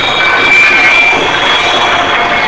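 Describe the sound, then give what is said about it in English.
A projected stasis field weapon striking a starship and disabling its engines and matter-antimatter generators: a steady, loud rushing roar laced with a thin high whine that persists throughout. “Captain, we have been hit by a kind of projected stasis field.”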